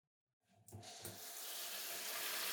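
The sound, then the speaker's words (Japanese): Running water from a tap rinses leftover cut hair from a head after a haircut. It starts abruptly as a steady, hissing flow that swells slightly and continues evenly. “まずはさっとカットで残った髪の毛を洗い流しつつ、”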